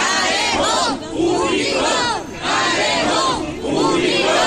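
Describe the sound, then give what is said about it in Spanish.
Local neighbours protest outside Antequera town hall, demanding the reopening of a public alley, with loud chanting in unison. Shouted phrases repeat with brief dips between them. “Este es el sonido de esta mañana a la puerta del ayuntamiento. Son vecinos que reivindican el poder transitar de nuevo por un callejón que han usado históricamente”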